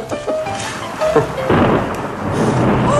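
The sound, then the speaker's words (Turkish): Heavy rain with thunder: a dense, steady hiss of downpour fills the whole clip, and a deep rolling rumble swells in about halfway through and stays loud to the end, with no voices over it. “Felaket bir yağmur. Çabuk içeri girelim.”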